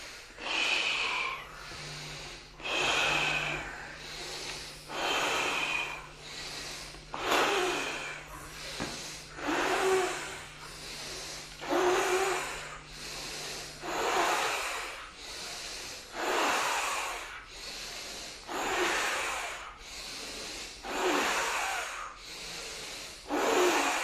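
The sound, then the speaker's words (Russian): Forceful rhythmic breathing exercise from a kriya yoga practice: sharp blowing-out breaths as if putting out a candle, each followed by an inhale. Many loud exhale bursts repeat at a steady, even pace, with no talking. “Задувание свечи, вдох.”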